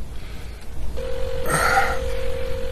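An unanswered telephone rings: a steady, mid-pitched electronic tone starts about a second in and holds to the end over constant background hiss.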